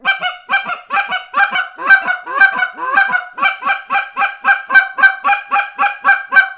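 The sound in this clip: Loud, rhythmic honking from a goose call blown with a hand cupped in front as a megaphone, giving a long, evenly paced series of deep, nasal goose-like notes with no talk.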